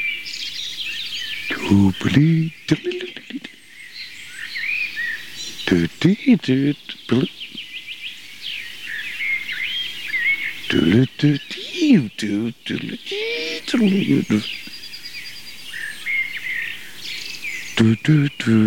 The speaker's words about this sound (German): Auf jeden Fall schön hören, warum die Amsel in die Gruppe der Melodica gehört.